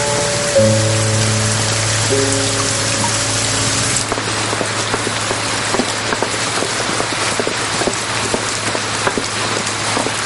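Steady rain falling on city streets, a dense, even hiss with scattered drop patters throughout. Sustained musical notes play under the first few seconds, then the rain continues alone.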